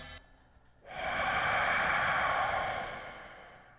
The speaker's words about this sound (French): En 2024, entendre ça, des respirations indéterminées, étranges